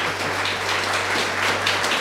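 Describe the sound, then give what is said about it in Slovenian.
An audience at an evening event in Šoštanj applauds a guest, a diffuse, even wash of clapping that continues throughout, with a low steady hum running beneath it. “Zdaj pa prosim še en aplavz za Kristjana, ki je prišel v Šoštanj.”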